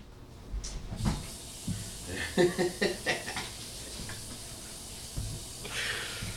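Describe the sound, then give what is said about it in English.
A bacon explosion, woven bacon twisted into a roll, sizzles in a frying pan with a steady hiss, broken by a few soft knocks and clatters. “He weaved the bacon. He did the twist. And now the big, that big daddy's in the pan.”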